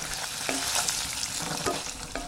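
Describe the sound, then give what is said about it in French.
Food sizzles in a cast iron pan at low temperature, a steady crackling hiss throughout. A few faint clicks of stirring rise above it. “j'adore ce petit bruit. Tout cuit dans des... uniquement dans de la fonte, c'est une cuisson à basse température.”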